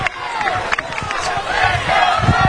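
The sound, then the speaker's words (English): At a college football game, the stadium crowd roars as the Tigers' defense takes the field, a broad wash of shouting voices that grows slightly louder toward the end. “The crowd's starting to come alive here.”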